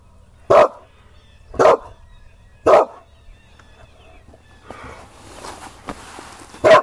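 A dog barks four times, loud and sharp; the first three come about a second apart, then a long gap of quieter shuffling precedes the last bark.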